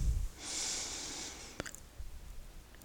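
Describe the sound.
One long, soft, airy breath is heard during a yoga practice. It is quiet and unhurried, rising as a gentle hiss and fading away.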